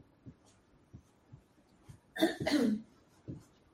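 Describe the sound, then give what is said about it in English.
Someone clears their throat in one loud, harsh, rasping burst made of two linked pushes. It stands out against a quiet background with a few faint low thumps. “Somebody clearing their throat to say something?”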